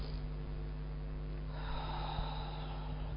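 Soft, airy breathing from a person with sinus trouble: a slow breath in, then a longer, breathier exhalation. Both are faint over a steady low hum.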